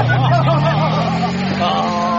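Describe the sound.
A motorbike engine revving as the rider opens it up: a loud, continuous growl whose low pitch climbs gradually, with voices talking over it.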